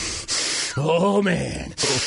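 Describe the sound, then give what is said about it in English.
A man imitates angry breathing through the nose, making a few loud, forceful hissing snorts with a voiced, grunting middle part. “he's pacing back and forth, breathing through his nose like,”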